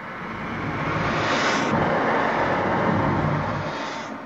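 Rocket launch sound effect in a radio play about a homemade Saarland rocket: a broad, loud roar that swells up over about a second, holds steady, then eases off toward the end.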